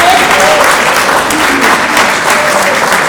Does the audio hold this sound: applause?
yes